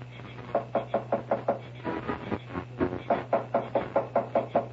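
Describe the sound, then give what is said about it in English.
Pounding on a door: heavy knocks come in quick, even runs of many blows, with brief pauses between the runs, over a low steady hum. “Go ahead, start pounding on the door.”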